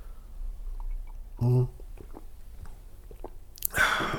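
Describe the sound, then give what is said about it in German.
A quiet sip of coffee from a Fortuna Düsseldorf mug: a short hollow knock, then a brief, noisy slurp near the end, with soft mouth sounds in between. “Kurz einen Schluck Kaffee. Ich habe so viel geredet.”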